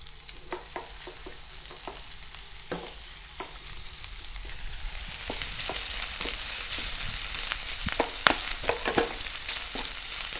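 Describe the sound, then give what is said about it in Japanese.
Bacon frying in oil in a frying pan gives a steady, bright sizzle with scattered crackles and pops. The sizzle grows slightly louder partway through, and no one speaks. “フライパンをぐるっと回して油を全体に行き渡らせたら、まずはベーコンから炒めましょう。”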